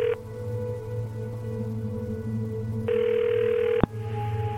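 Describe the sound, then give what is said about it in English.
A telephone ringback tone sounds after a number is dialed: a single burst of ringing of about a second rises out of a steady electrical hum and ends with a sharp click. “Before he has time to think better of it, he is dialing the next number and listening to the same old purgatorial ring.”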